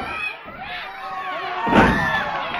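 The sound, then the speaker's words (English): A wrestler's body slam onto the mat at a wrestling match lands as one heavy thud partway through, set against steady crowd noise and people talking. “Body slam.”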